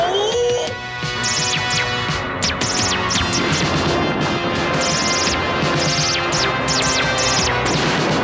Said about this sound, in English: Battle stations, quickly. Keep up all evasive maneuvers. Go, they're firing, guys.